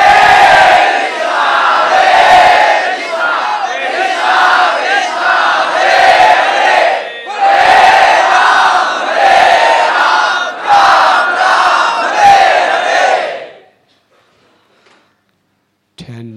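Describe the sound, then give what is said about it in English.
A crowd chants the holy name in loud unison, repeating phrases rhythmically in a strong, continuous chorus that breaks off abruptly near the end and gives way to near silence. “This is the great gift of chanting the holy name.”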